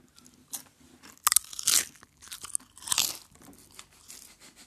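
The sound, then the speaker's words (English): Crunching of a lime flavour crisp being bitten and chewed: a few sharp, dry crackling bursts in an irregular rhythm, with quieter chewing between them and no talk. “First of all, it's a crisp. Secondly, I can tell you that this one is lime flavour.”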